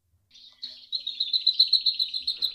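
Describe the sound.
A bird sings close by with high, bright chirping: a few short opening notes, then a rapid run of many evenly spaced, loud, piercing notes, heard alone without talk.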